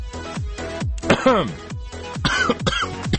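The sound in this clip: Someone coughs repeatedly as if choking on something, a run of harsh, throaty bursts with voiced, strained sounds between them, spread fairly evenly throughout.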